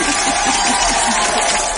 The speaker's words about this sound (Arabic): وحنصفق لك صفق عشان آخر واحد.